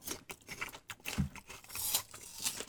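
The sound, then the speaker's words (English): Someone biting into Brie cheese with a piece of cold apple, giving soft, irregular crunching and chewing sounds, faint and close, with no talk. “Bit of Brie, bit of apple. All right. Now, the apple's cold.”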